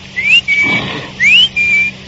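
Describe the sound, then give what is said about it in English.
A person whistles in imitation of the bird in a cuckoo-style clock: two clear, high phrases, each a quick rising slide followed by a level sustained note, separated by a short pause. “My father had a clock that told the time with a bird jumping out. The bird whistled, like this.”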